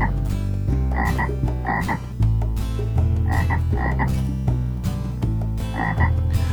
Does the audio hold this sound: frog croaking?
yes